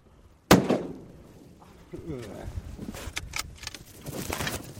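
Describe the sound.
A single rifle shot fired from a boat during a caribou hunt cracks out sharp and loud, then decays quickly, followed by people talking.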